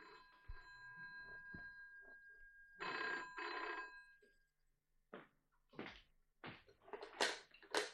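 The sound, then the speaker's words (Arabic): A telephone bell rings in two loud, bright bursts, followed by a few short clattering knocks. “اقوم انا ارد على التليفون.”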